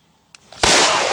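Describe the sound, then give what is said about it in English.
Accidental pistol discharge as a handgun goes off during a quick draw before clearing the shooter's body: after a couple of faint clicks, a sudden loud blast breaks in and carries on as dense, harsh noise to the end. “He's trying to do a quick draw. True quick draw. And he drew quick, but he pulled the trigger quicker. And the gun had not cleared his body yet. Himself right in the thigh.”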